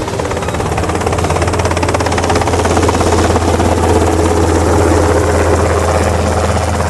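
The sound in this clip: A steady, loud whirring drone from an ornithopter-type flying craft. The rotor beat and engine roar stay even and continuous throughout, with no voices.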